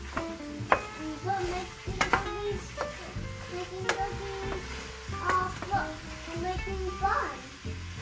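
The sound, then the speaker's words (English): Onions stirred in warm oil in a pot over medium-low heat for babka, scraping and rustling with a soft sizzle throughout, under voices in the background. “I'm going to stir this up.”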